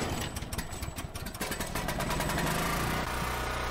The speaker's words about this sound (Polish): Czy ten generator jeszcze mógł kogoś obudzić?